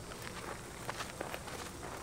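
Faint footsteps of people walking in the desert, a few soft, scattered steps barely rising above a steady hiss of background noise.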